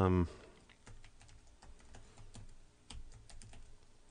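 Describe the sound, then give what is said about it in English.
A password being typed on a computer keyboard: many quiet, irregular keystroke clicks come in uneven bursts, with a few harder taps standing out. “My new Skype password is really hard to type.”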